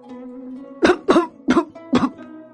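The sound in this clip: An old man coughs violently, four harsh, rasping bursts in quick succession with short gaps between them, loud and clear over a quiet, steady background.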